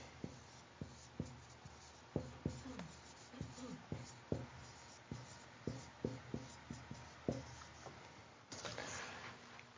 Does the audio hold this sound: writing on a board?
yes